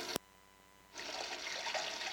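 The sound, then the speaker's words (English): A urinal being flushed: a sharp click of the handle, a short quiet pause, then a steady rushing hiss of water that carries on to the end. “Can you hear that? I'm flushing the urinal. All right, now, okay, one more time just to make sure the water is really clean.”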